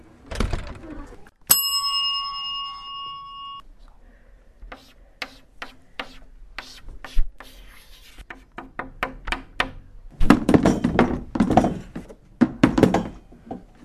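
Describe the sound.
In a classroom, a stop bell gives one bright, ringing ding that lingers, followed by a run of sharp chalk taps and clicks on a blackboard, then louder clattering bursts of chairs being shifted.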